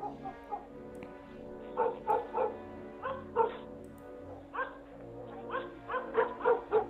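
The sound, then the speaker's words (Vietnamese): A dog barking far off at the end of a village lane on a cold, windless night, giving many short, faint yapping barks in irregular bursts over an otherwise quiet background. “Phía xa xa đầu ngõ xóm có tiếng con chó sủa nhấm nhách cắn ma của nhà ai vậy.”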